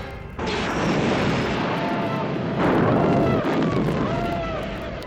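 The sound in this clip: Loud laser weapons fire as stormtroopers storm aboard a captured rebel ship: a dense, continuous roar of crashing, blasting noise with faint tonal zaps threaded through, swelling again partway through before easing off.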